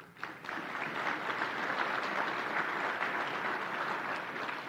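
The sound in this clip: An audience applauds as a guest is welcomed on stage at a Salt Lake City event. The clapping swells in quickly just after the start, then stays steady and full, easing only slightly near the end.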